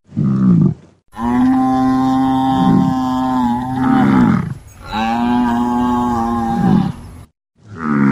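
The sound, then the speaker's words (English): A herd of buffalo moos in deep, drawn-out lowing calls: two long moos, each several seconds, bracketed by brief fragments of further calls at the start and end, loud and with no talking. “So I've got you a herd of buffalo”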